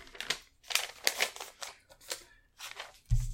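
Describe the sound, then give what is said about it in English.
A page is ripped out of a notebook in several short, faint bursts of tearing paper, ending with a low soft thump. “Can you just rip me out a piece of your notebook?”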